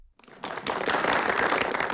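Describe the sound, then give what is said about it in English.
Applause from an audience at a company meeting breaks out after a brief silence and quickly swells into dense, steady clapping that holds to the end. “No, give yourself a big round of applause.”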